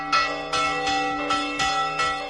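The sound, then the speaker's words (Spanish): Church bells ring out from village churches across a province, tolled in protest over rural depopulation. Bright, ringing strikes repeat at a steady pace, their metallic tones sustaining and overlapping, with no voices. “Y así han sonado las campanas en muchos de los pueblos de la provincia.”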